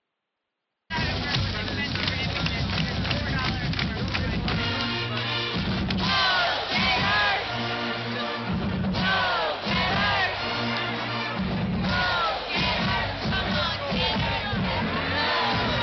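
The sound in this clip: A stadium crowd in Gainesville chants loudly in unison. The mass of voices bursts in after a brief silence and keeps a rhythmic, repeated shouting going throughout.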